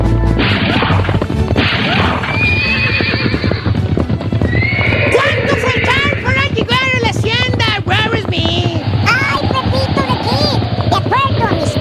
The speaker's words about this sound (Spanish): Fíjate que iban mi gran tío Pepito de Kid y su gran amigo el Rorro Smith cabalgando allá por el viejo este a todo galope.